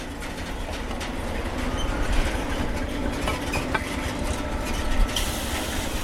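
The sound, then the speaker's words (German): Freight wagons being shunted in a rail yard in Chemnitz: a loud, steady rumble of rolling wagons with rattling and clattering metal running throughout, no voices. “So hört sich's an, wenn Güterwaggons rangiert werden.”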